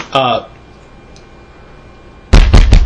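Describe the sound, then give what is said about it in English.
Knocking on a table: a few loud, sharp raps in quick succession, following a brief burst of voice and a quiet pause. “it knocks on the table.”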